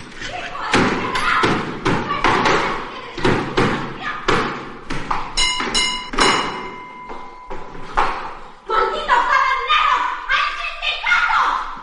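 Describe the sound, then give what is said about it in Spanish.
A door is slammed shut by a woman storming angrily out of a house. Heavy thuds come among several other knocks and bangs, with voices speaking throughout. “Al día siguiente, Adoración sale de la casa enfadada y golpeando la puerta.”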